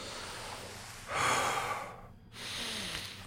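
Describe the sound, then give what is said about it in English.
Deep, slow breathing from a person feeling dizzy: two long, airy breaths, the first louder, separated by a brief silence, over a soft steady hiss. “Just breathe a couple times.”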